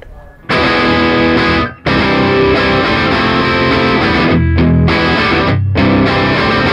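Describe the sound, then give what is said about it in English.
Solid-body electric guitar with aggressive pickups, played heavily distorted and slightly out of tune, loud ringing chords sustained with a few short breaks between them. “this is the first time like a solid body, and these pickups rip, they're like, they're cool. Can we hear a little bit of it?”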